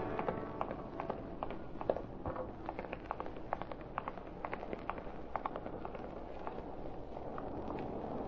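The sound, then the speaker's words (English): Footsteps of people walking, heard as many quick, light taps at a fairly steady pace under a constant wash of noise. “Now we'll walk.”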